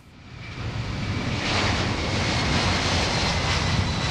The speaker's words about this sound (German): Kurz nach 13 Uhr deutscher Zeit hob der dunkelgraue Airbus der Luftwaffe von der Atlantikinsel in Richtung Deutschland ab.